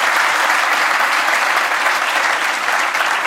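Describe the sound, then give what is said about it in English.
Steady, loud audience applause, dense even clapping sustained through the whole stretch. “Yeah, please give a hand.”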